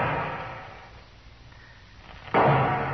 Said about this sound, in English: What's he shooting at now?